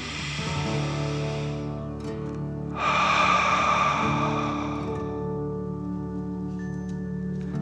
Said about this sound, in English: let's take another deep dragon breath. Fill up your chest and belly, in and out.